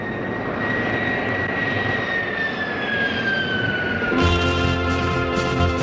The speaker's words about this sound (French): Et voilà, ça y est, le décollage est effectué.